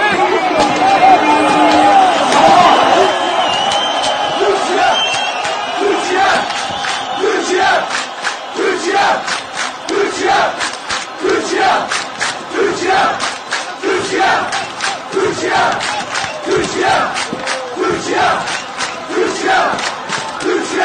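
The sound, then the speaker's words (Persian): Turkish national team fans chanting at a stadium match, a huge crowd roaring in a rhythmic chant with regular pulses, loud and continuous throughout. “حاکی از آن است که تشویق کشور ترکیه قبل از سوت شروع مسابقه آغاز شده و تا پایان بازی ادامه یافته است.”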